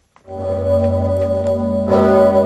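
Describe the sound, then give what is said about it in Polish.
A large historic cathedral bell, the great bell of Wawel Cathedral in Kraków, tolls for the Independence Day anniversary. It gives a loud, deep, sustained humming tone with rich ringing overtones, then sounds again with a fresh strike later on. “W Krakowie obwieścił ją dzwon Zygmunta. Można go było usłyszeć przez 8 minut.”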